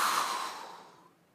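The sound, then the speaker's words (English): A long breathy exhale as people breathe out together during a prayer, a soft airy hiss that starts strong and fades steadily over about a second and a half, with no talk over it. “I want everybody to take a breath. Almost done. Exhale.”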